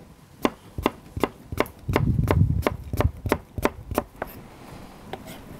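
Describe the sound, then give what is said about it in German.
Knife chopping an apple into cubes on a board: a steady run of many crisp, sharp cuts at an even pace, with a brief rougher scraping patch partway through and no talk. “Dann als nächstes schneiden wir Apfelwürfel. Den Strunk raus.”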